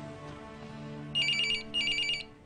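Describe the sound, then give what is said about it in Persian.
A telephone rings in two short electronic bursts separated by a brief pause, bright and insistent over a steady low background hum. “جان، تلفن کارگاه ارشد تجسس لوتر.”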